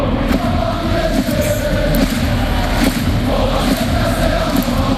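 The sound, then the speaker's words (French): Paris football supporters chant together in the stands of a stadium, a dense, steady roar of many voices in which the words are hard to make out. “Voilà, c'est le chant des supporters. Bon, on entend mal les paroles.”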